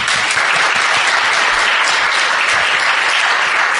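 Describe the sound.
A warm Ledbury welcome for a poet at a poetry reading comes as a burst of loud, even audience applause. The dense clapping stays constant throughout the short stretch.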